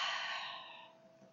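A long, steady exhale after an inhale during a guided breathing exercise, an airy hiss that starts fairly strong and fades gradually toward silence.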